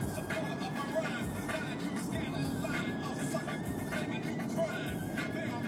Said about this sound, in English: Back on the motherfucking freeway.